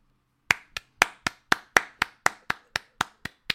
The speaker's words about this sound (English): I'm gonna clap for that. I'm gonna let this draw out too.